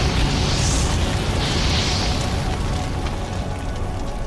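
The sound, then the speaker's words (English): A fire sound effect depicts flames igniting the sky: a dense, continuous roaring rush of noise that holds steady and loud throughout, with no voices. “Fire ignited the sky.”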